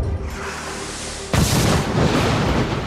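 Gunfire from a gunboat: after a stretch of steady low noise, a heavy boom-like burst hits midway and stays loud as a broad, rough rumble to the end.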